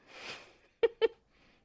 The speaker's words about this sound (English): I think my cat is hungry, people. Yeah, he is.